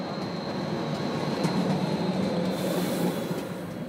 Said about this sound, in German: Unterwegs auf der steilsten Normalspur-Adhäsionsbahn in Europa. Das heißt, die Bahn überwindet die Steigung von 85 Promille ohne Zahnrad.